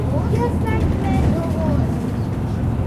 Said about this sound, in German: Eine Station von der U-Bahn. Schon sind wir da. Ist auch ein Expressbus. Wir fahren gerade an der Kirche vorbei.